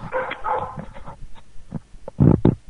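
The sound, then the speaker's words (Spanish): A dog barks in a few short bursts, with faint yips and whimpers before a louder pair of barks near the end. “El perro también mata todo eso. Sí, sí, el perro quiere opinar en las tertulias y tal.”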